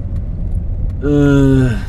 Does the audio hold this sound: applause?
no